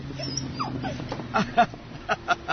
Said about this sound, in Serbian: Najplašljiviji pas na tri kontinenta.